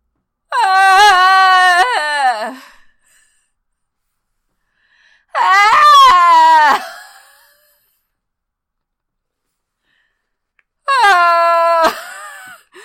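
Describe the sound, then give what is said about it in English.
A human voice imitates Bigfoot sounds with three long, loud, wailing howls. Each lasts about two seconds, is rich and tonal, and bends downward at the end, with pauses between them. “actual recordings of Bigfoot sounds. And I can do an impression if you want. So they sound kind of like this.”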